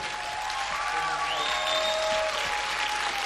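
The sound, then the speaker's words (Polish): Audience applause at the close of a live concert performance by a pop duo, a dense steady wash of clapping that stays loud and even throughout with no voices breaking through. “Raz jeszcze gorące oklaski.”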